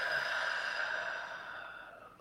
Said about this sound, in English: Nice big inhale and exhale.